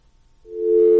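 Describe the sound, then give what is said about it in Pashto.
A telephone busy tone sounds after a caller's line cuts off on a radio call-in. A single steady low-pitched tone swells up from near-silence and holds, with no talk. “ټلیفون یې لکه چې قطع شوی دی.”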